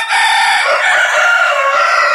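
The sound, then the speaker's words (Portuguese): Two roosters crowing in a loud, continuous, strained cock-a-doodle-doo that fills the whole stretch without a break. “Dois galos cantando.”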